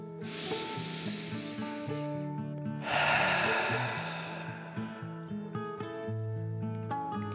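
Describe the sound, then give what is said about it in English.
A deep breath is drawn in and then let out, two long, airy whooshes separated by a short pause, set against soft, sustained musical tones. “The little icebreaker took a deep breath in and out.”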